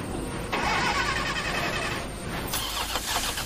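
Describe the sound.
A car engine starting during a frantic escape, heard as a loud, steady mechanical churn whose tone shifts partway through, with no voices.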